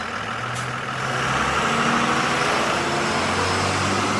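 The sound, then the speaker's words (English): A school bus pulling away from the curb: a brief high hiss early on, then the engine revs up into a louder, steady low rumble that holds to the end. “A school bus pulling away from the curb.”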